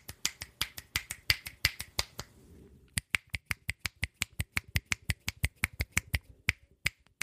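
Fingers snapping over and over, many sharp, dry clicks in a quick, steady rhythm, with a brief pause partway through before the snapping resumes alone.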